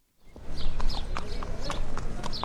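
Horses' hooves clip-clop at a Kentucky racetrack before sunrise as riders warm up, with many quick, steady hoofbeats starting after a brief silence and continuing loudly to the end.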